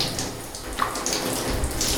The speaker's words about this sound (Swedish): Sen så börjar man med munnen. Sköljer ur.